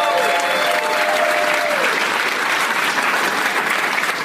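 A live comedy-show audience applauds, a dense, steady patter of many clapping hands that holds at an even level for about four seconds.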